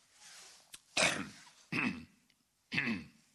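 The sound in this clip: A man clears his throat in three rasping bursts, fairly faint, each separated by a short pause, with a small click just before the first.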